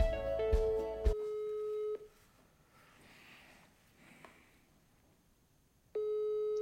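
A telephone call ringing out to a contact at an institute in Potsdam: steady electronic ringback tones on the line, one long tone at the start, a quiet pause, then the tone returns at the end.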